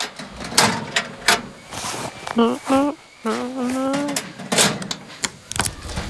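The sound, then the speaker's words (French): A small locker is shut and locked with a key in a swimming-pool changing area. A few sharp knocks and clicks come between stretches of a young voice and an adult voice talking. “Et maintenant, mon doudou, il faut mettre tes affaires dans un petit casier que l'on va fermer à clé.”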